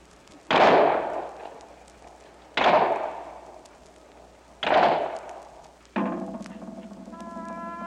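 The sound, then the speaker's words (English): A firing squad fires a three-volley rifle salute: three loud, evenly spaced cracks, each fading in a decaying tail, followed by a steady tonal sound. “Firing squad, fire 3 volley.”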